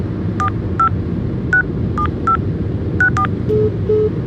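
A telephone number is dialed on a keypad: a quick run of seven crisp, clear touch-tones at an uneven pace, then two lower, longer steady tones, over a constant low background hum.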